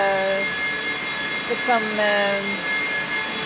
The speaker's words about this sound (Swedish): Det är ett ständigt arbetande system som för bort värmen från servrarna och tillför kyla. Och man blir lite knäpp när man har lyssnat för länge på det här ljudet, tror jag. Servrarnas egna fläktar, det är de som låter.